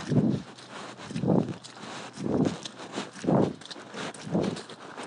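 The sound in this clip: Footsteps squelch through mud at an equestrian yard in the morning: about five heavy, muffled, low steps fall at a slow, even pace, roughly one per second, over a faint rustling background.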